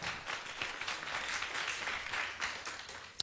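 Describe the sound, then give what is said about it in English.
Audience applause welcoming a guest onto a stage: faint, steady clapping from many hands that continues evenly, with one sharper clap standing out near the end. “俾啲掌聲佢先。”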